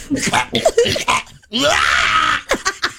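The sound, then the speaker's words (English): A man's voice imitates a cat coughing up a hairball in a harsh, Hitler-style manner. Gruff, guttural grunts lead into one long, raspy hacking retch, followed by a few short, choppy throaty bursts. “Here's a Hitler hairball, in case you missed it. I am licking the pussycat, and now I have the hair deep in my throat, and I must clear it out in one motion.”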